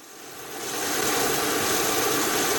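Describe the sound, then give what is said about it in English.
A lower-emission aircraft refueling on a regional airport tarmac gives off a broad, rushing engine roar. It swells over the first second, then holds loud and steady. “that's the sound of a plane with lower carbon emissions. The aircraft is refueling on the tarmac at the Telluride Regional Airport”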